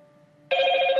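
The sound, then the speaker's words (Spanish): A telephone ring sounds while a call is placed. It starts abruptly halfway through and holds loud and steady to the end, after a fainter, steady tonal hum. “Déjame marcarle, a ver si nos contesta.”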